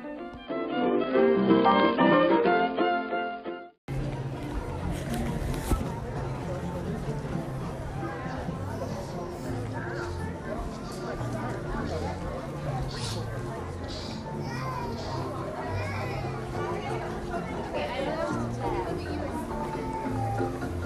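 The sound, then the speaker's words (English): Crowd chatter and hubbub of many voices on the Jungle Cruise in Adventureland at a Disney park, after a few seconds of band-limited music at the start. The busy babble continues steadily to the end. “enjoy Adventureland, the Jungle Cruise, Queue Line, that big band music, and then a full ride audio of the Jungle Cruise.”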